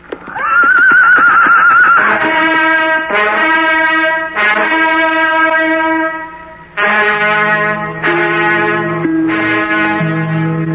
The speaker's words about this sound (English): So the two friends gallop off through the forest to end the eventful day.